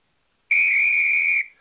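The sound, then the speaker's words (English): A short whistle marks the end of a timed topic on a sports discussion show. It is one clear, steady high tone lasting about a second, then it stops with a brief trailing fade. “I will be keeping track of the time. We will hear a little whistle like this”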